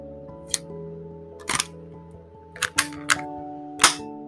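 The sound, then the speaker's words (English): An airsoft gun is reloaded with about six sharp mechanical clicks and snaps, some coming in quick pairs. They are spaced irregularly over a faint, steady low hum, with no talk. “ASMR airsoft reload.”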